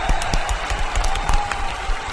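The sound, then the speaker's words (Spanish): Applause from a group of listeners after a story reading: a dense, steady patter of many quick claps, fairly loud, with no talk over it. “¡Aplausos!”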